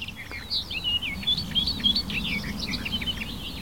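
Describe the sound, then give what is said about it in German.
A warbler sings on and on, its song said to include imitations of other birds' calls: many quick, varied chirps and trills run without pause throughout, over a steady low rumble. “Und all diese Ablenkungen meiner Wahrnehmung lässt einfach diese Grasmücke vor mir singen und singen und singen. Boah, da waren Imitationen eben drin.”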